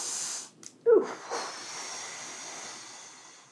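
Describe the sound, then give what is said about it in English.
A person takes a deep breath: a short, sharp rush of air followed by a softer, longer breathy sound that fades into a faint hiss. “I have to take another breath.”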